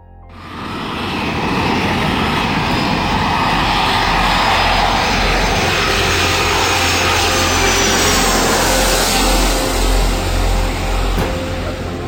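An airplane landing at Fiumicino international airport after a flight from Rio de Janeiro: a loud, broad engine roar swells in within the first second and holds steady throughout, with no voices.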